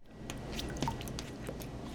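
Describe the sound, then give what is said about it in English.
Water sloshes and drips softly in a tank as a hypothermic sea turtle warms up and swims at an aquarium turtle hospital. The churning is steady and continuous, with a few small splashy clicks and no voices. “That's the sound of a sea turtle gradually warming up in a tank and recovering its ability to swim.”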